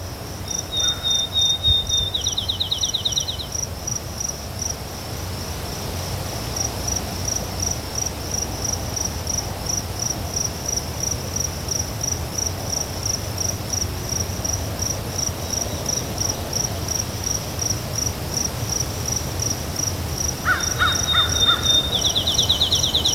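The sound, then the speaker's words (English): Eastern phoebe song: two brief, buzzy, high phrases, one near the start and one at the end, over a steady, shrill drone of insects. “Eastern phoebe.”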